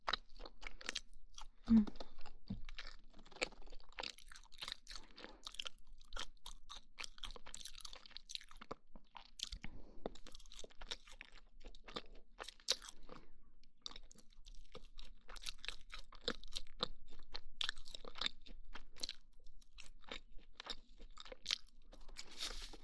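Crunchy chewing of crisp yet soft food: many quick, faint crunches and munching bites in an uneven, steady stream that runs the whole way through.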